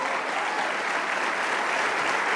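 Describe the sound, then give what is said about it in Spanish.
An audience applauds during a Spanish-language church sermon, a steady and dense wash of many hands clapping that fills the whole clip with no voices on top. “¡Wow! Le damos un aplauso.”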